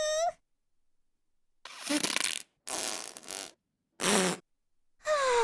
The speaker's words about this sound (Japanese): 出る出る出る出る出る。おなら出ちゃう。